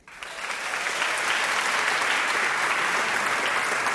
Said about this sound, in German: Und nachdem sie so laut applaudiert haben, können sie eigentlich direkt wieder weitermachen.